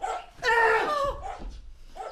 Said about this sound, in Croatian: Jebote, pas.